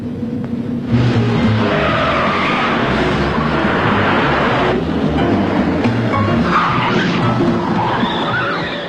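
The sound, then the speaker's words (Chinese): Cars race in a dramatized car chase, with loud, continuous roaring engines and screeching tire skids that surge and shift throughout. “一场精彩的追车表演开始了”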